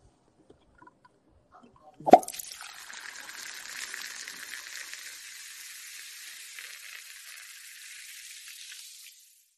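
Tequila poured from a bottle: a single clunk, then a faint, steady liquid hiss that runs for several seconds before stopping.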